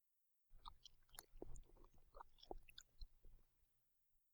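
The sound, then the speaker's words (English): Quiet chewing and biting as a few people eat a food containing currants: a sparse scatter of soft, moist crunches and clicks spread over a few seconds. “And now, we eat.”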